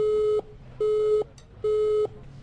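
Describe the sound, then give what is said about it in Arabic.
Phone tones of an unreachable call sound as evenly spaced beeps at one steady pitch. Three full tones, each about half a second long, are separated by equal gaps, and a fourth begins at the very end. “إن الهاتف المطلوب لا يمكن الاتصال به الآن، يرجى معاودة الاتصال في وقت لاحق.”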